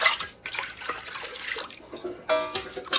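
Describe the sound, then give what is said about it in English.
Water runs and splashes at a sink as someone washes up after stirring a mixture, a fairly faint continuous trickle with a brief louder splash near the end. “stirs the mixture, then washes up.”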